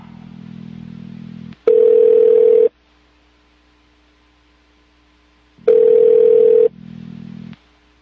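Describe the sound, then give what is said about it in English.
Telephone ringback tone as a call to the State Department goes unanswered: two steady ring tones of about a second each, several seconds apart, with a low line buzz around them. “Now the State Department's not answering.”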